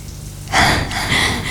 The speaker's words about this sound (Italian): Che bello. La pioggia.